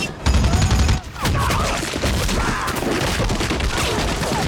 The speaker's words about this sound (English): He shoots the jeep driver with the machine gun.